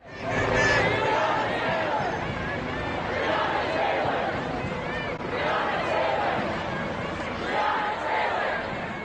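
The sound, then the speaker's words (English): Hundreds of protesters march peacefully through Boston for Breonna Taylor, a continuous mass of crowd voices with shouts and chant-like swells rising and falling at a moderate level. “And that's the sound of hundreds of protesters peacefully marching in Boston yesterday, calling for justice for Breonna Taylor,”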